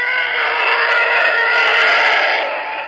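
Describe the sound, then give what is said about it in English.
A film sound effect built from an elephant call blended with cars driving on wet pavement: a loud, steady, high-pitched screaming roar that holds for nearly three seconds and then cuts off abruptly. “Ben Burtt, sound engineer, used elephant noise mixed with cars driving on wet pavement. So you take those two sounds, you combine them together, and somehow it ends up”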